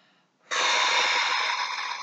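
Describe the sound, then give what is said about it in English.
A deep breath is released out through the mouth as one long, forceful, breathy exhale of about a second and a half. It stands alone and ends abruptly. “So let's take a deep breath, breathing in and releasing out through your mouth.”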